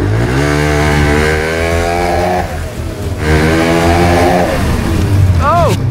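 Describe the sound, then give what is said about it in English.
A snowmobile engine accelerates hard across a mud bog, loud and continuous. Its pitch climbs in two surges with a brief dip between them. “We're doing snowmobile versus a mud bog. I say we just give it gas and just go for it.”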